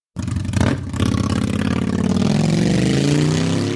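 A car engine starts and revs as the car drives off. The loud, steady engine note climbs gradually in pitch as it pulls away, with no voices over it.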